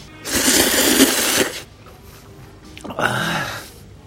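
Slurping of thick, traditional-style noodles served with onions: two noisy, hissing slurps, a long one and then, after a pause, a shorter one.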